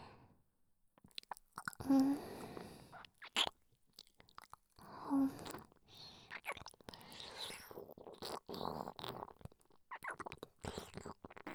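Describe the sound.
Close, quiet chewing of food with a strong vinegar aroma: many soft wet mouth sounds and bites in irregular bursts, separated by near silence.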